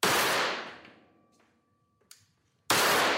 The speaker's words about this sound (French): Ah, j'ai tiré trop à gauche, j'ai voulu aller trop vite